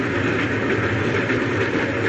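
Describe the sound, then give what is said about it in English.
Train wheels clattering on rails: a dense, continuous rumble with rapid clicking over a low, heavy drone, steady and loud from start to end. “For Louisa May Alcott, the train wheels are singing no song of homecoming”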